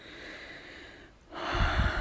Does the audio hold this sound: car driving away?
no

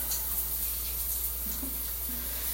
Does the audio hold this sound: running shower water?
yes

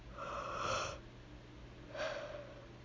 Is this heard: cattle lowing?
no

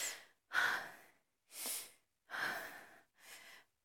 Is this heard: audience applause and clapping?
no

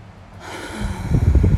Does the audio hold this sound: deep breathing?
yes

